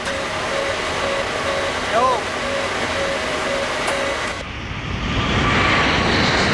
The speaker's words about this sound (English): A plane takes off.